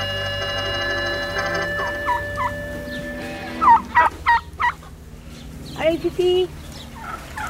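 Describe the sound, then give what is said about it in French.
Chickens clucking on a farm: a few short, throaty clucks in two loose clusters over a steady low background hum. “Les poulets de Mimi Ribouchon.”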